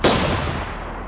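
A single pistol gunshot gives one loud, sharp crack with a long, noisy tail that slowly dies away.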